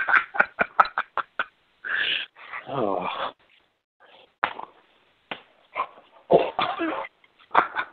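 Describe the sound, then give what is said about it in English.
A dog playing and tugging at a person's pants gives off a quick run of short, sharp huffs and snorts, then longer rough, growly bursts separated by brief pauses. “That's the dog, man. He's trying to play with me. I'm trying to get him away from me, and he won't leave me alone. He keeps pulling my pants down.”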